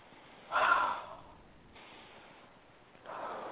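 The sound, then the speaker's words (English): A deep breath, drawn in as a strong, airy rush and then easing off, followed after a quiet pause by a second breath near the end. Both are soft and breathy, with no talking. “And take a deep breath.”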